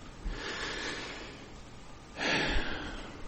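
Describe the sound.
Breathing sounds, used in Jewish tradition as a way to say God's name: two long, airy breaths with a soft hiss, the second louder and fuller than the first. No talking.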